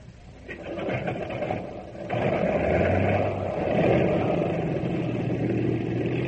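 An airplane engine starts up with a steady rumbling drone that jumps noticeably louder about two seconds in, then holds a continuous, shaking roar with a low steady tone underneath.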